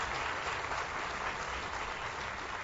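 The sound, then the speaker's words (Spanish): An audience applauds at a public works ceremony, a dense, steady wash of clapping that continues without pause throughout. “A los contratistas también que están aquí presentes, un aplauso a ellos”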